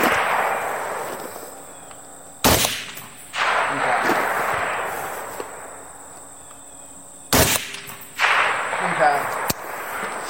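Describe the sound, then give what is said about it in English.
Sharp rifle rounds crack on a shooting range as they strike targets set from 300 to 600 yards out. A few loud, abrupt reports stand out against steady, hissing background noise. “Well, three first round impacts going from 300 to 600.”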